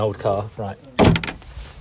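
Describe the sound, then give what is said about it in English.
A front door opens with one short, sharp clunk and rattle that comes just after a man speaks a few words, then gives way to quieter handling noise as he starts talking again. “it's the sound of my front door, because we are off to London”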